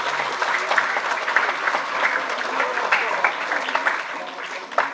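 Audience applause at a primary school ceremony: a dense, steady clatter of many hands clapping together for several seconds, easing slightly near the end.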